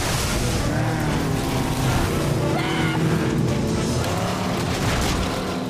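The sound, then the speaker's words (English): Speedboats and inflatable boats swerve through water in a chase, kicking up spray; a loud, continuous roar of engines and rushing water runs unbroken throughout. “Then the inflatable turns for another run. Give me the wheel! Navigate! The swerving boats kick up fountains of spray.”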